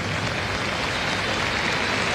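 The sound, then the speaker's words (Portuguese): A stadium crowd stands and applauds an injured Bragantino player at a football match, a dense, even wash of clapping with no pauses or peaks. “Olha, todo está de pé, aplaudindo o jogador do Bragantino.”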